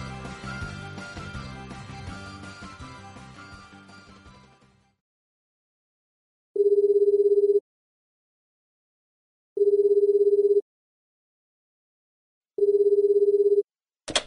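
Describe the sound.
A company telephone rings before being answered: three steady, low-pitched tones, each about a second long, spaced evenly apart. Music fades out before the rings, and a short click follows them.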